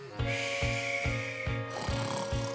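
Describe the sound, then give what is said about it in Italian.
Snoring imitated in rhythm within a sung Italian children's story, six evenly spaced snore-like pulses set against sustained musical tones. “ormai Pulcinella russava, direi, in dialetto di Pompei”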